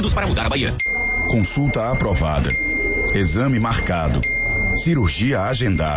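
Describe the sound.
A bright bell ding chimes three times in a Brazilian political radio ad promoting a Bahia health program. Each ring sounds under steady Portuguese speech and lingers briefly.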